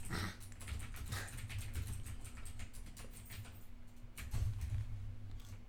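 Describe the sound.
Typing on a computer keyboard: many light, quick key clicks in uneven runs with short pauses, faint and steady throughout, with no talk.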